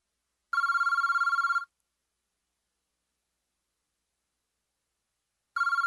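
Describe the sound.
An unanswered telephone call rings with a steady electronic bell tone. One burst lasts about a second, followed by a long silence, and a second ring begins and is cut off at the end.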